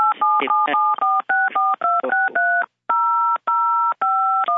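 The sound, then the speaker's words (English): Telephone keypad tones are dialed during a phone call, a loud run of many steady two-pitch beeps separated by short gaps, with no speech over them. “somebody, please mute. You're dialing right through the phone call.”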